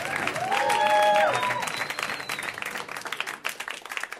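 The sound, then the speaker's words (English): Audience applause and cheering for a comedian at a live comedy show, a dense, loud wash of clapping that peaks in the first second and a half, then continues at a steady, slightly lower level to the end. “Dan Mintz, let him hear it!”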